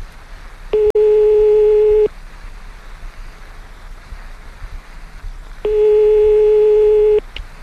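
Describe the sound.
Telephone line tone while a call is placed during a radio phone-in: two long, steady buzzing tones of about a second and a half each, separated by a quiet gap, with a sharp click near the start.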